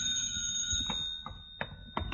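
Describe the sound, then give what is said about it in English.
A telephone bell rings with a steady, sustained metallic tone. It is faint, with a few soft clicks or knocks scattered through it. “the telephone rang.”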